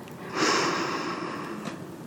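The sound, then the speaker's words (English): A slow, steady breath drawn in through the nose: a soft hissing airflow that starts after a quarter second, holds for more than a second and then tapers off, quiet and alone. “Breathe in slowly through your nose.”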